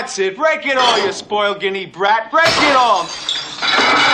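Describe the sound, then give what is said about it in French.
A plate smashing: a voice speaks first, then a sharp crash breaks out with a bright, scattering spray of shattering ceramic that trails off. “Dans l'imaginaire collectif, une femme violente, c'est une meuf qui casse une assiette.”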